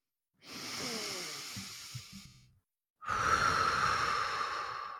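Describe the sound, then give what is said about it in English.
Two long, deep breaths taken together, each a slow, airy rush lasting about two seconds, separated by a short pause, the second fuller and louder than the first, with no talking. “let's take a couple of collective deep breaths before we move on”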